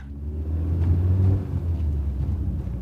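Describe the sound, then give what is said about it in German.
A car speeds along the Autobahn with a steady, low engine rumble and road roar, fairly quiet and even throughout, with no one talking. “Endlich auf der Autobahn. Mhm. Jetzt kann ich schnell fahren.”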